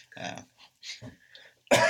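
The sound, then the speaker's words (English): A single sharp, harsh cough from someone with a lingering cough, loud and brief, coming at the end after a few quieter, scattered sounds. “Excuse me. Pardon my cough. I'm still got this lingering cough.”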